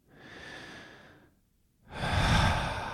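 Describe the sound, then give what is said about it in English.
Deep breathing during a guided meditation: a soft, airy inhale of about a second, a brief pause, then a louder and fuller exhale. “And if it's helpful, maybe taking 3 deep breaths”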